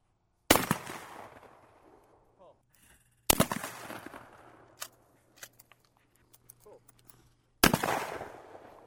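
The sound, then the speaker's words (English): Shotgun fire at a weekend skeet shoot held by a sportsman's club: three sharp, loud blasts spaced a few seconds apart, each trailing off in a long decay. “I'm out at the Watertown Sportsman's Club's weekend skeet shoot.”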